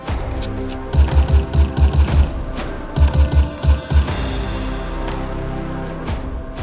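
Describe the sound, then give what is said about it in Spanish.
Gunfire from a criminal firing two pistols at police from behind a padded armchair: two bursts of loud, rapid, evenly spaced shots, about seven, then about four, over a low rumbling background. “El asesino dos pistolas Crowley se encontraba agachado tras un sillón, un sillón bien acolchonado, y disparaba como loco contra la policía.”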